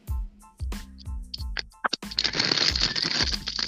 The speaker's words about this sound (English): You're crumbling paper. I'm crumbling paper. That was me.